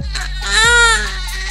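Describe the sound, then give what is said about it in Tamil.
An infant cries from lower gas discomfort, a loud, sustained wail whose pitch arches upward and then falls away. “இப்படி அழுதா lower கேஸ்னு அர்த்தமா”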